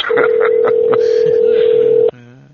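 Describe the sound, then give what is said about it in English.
A telephone dial tone hums steadily while someone calls back, with a few keypad tones pulsing over the continuous drone before it cuts off abruptly and a voice begins. “I'm trying to get Milkman back on, see if he answers.”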